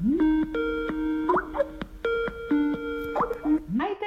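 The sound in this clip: A Skype call rings with electronic tones in two similar repeated phrases, each ending in quick upward chirps. The ringing is moderately loud.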